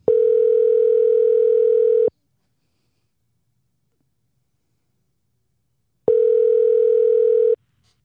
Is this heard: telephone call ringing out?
yes

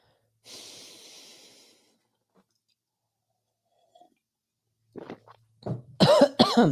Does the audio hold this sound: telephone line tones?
no

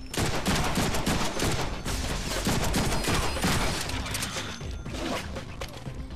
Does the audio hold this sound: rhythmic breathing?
no

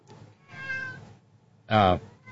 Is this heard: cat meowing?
yes

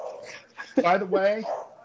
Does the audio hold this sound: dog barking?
yes

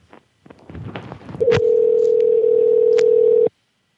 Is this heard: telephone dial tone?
yes

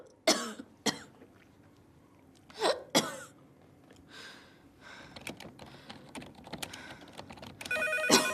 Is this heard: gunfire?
no

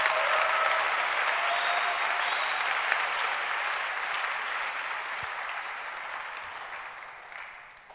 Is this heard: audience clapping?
yes

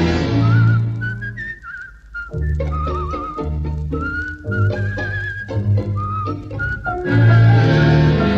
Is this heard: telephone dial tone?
no

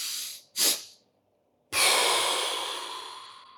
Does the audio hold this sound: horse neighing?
no

